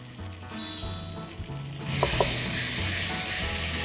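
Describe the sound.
Mushrooms sizzle and crackle as they are stir-fried in hot oil, a low steady frying bed that jumps into a bright, loud hiss when a splash of vinegar is added, with a couple of clinks of the utensil.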